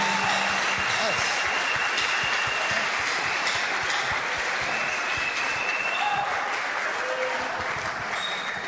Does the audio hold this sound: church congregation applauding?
yes